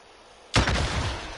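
An RPG rocket launcher fires in a video game. After near silence, one sudden loud blast leads into a sustained rushing roar that lasts to the end.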